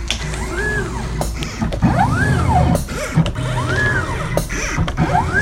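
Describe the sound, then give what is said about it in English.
A motorized mat cutter whirs in a picture framing shop in Armonk, New York. Repeated mechanical whines sweep up and then down in pitch, mixed with clunks and clicks over a constant machine hum. “some of you also sent us sounds of the machines in your lives. A listener in Armonk, New York, sent us this sound of their mat cutter from their framing shop.”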